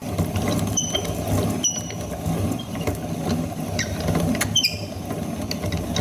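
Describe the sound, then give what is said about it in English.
An old-fashioned millstone grinder grinds cleaned wheat berries into flour, making a continuous rough grinding rumble scattered with small mechanical clicks and ticks. “Here's the cleaned wheat berries, and now I'm gonna put them through an old-fashioned grinder. And these are two millstones, and the flour will come out here as I grind it.”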